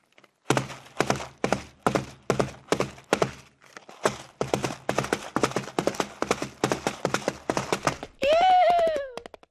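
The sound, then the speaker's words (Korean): Hollow tapping on two cup noodle cups mimics a galloping horse: many quick taps in a steady clip-clop rhythm. It ends with a short voiced whinny imitation that rises and then falls in pitch. “말이 달리는 것 같아.”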